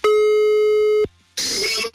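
Ringback tone of an outgoing telephone call: a steady electronic tone holds for about a second and cuts off, then a short pause and a burst of noisy, rustling sound follow.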